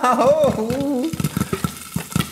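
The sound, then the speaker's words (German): Homemade popcorn popping in a pot. A voice speaks first, then a rapid, irregular run of sharp pops follows over a soft sizzling background. “Wann poppt denn der Popcorn endlich? Oh, es ploppt.”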